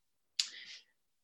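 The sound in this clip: A single click as a presentation slide is advanced during a talk: one short, sharp burst with a brief tail, heard alone against silence.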